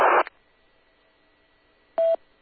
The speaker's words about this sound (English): Oh, now phone call.